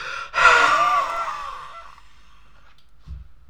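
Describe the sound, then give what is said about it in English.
An exaggerated deep intake of breath, a loud, rushing gasp lasting over a second that slowly fades into quiet. “That was my wild breath. That was a wild breath, my friend.”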